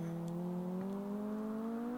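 Decompression sound effect of a time machine arriving: a continuous mechanical whir with a low hum and stacked tones that slowly rise in pitch.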